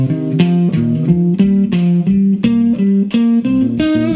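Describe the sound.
Guitar playing a steady run of notes grouped in threes as triplets over a 4/4 pulse, even and unbroken with no gaps, the pitches shifting slightly from group to group.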